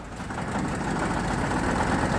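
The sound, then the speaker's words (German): A motor engine runs with a steady, dense low rumble at an even level throughout; no distinct start is heard. “Du musst den Motor noch mal anlassen”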